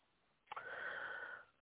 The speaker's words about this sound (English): Gotta take another deep breath, y'all. Gotta take another deep breath.